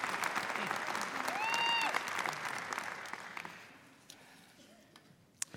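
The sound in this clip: An audience applauds to welcome a guest speaker. Strong clapping with a brief whistle early on thins out and fades over the second half, leaving only a few scattered claps.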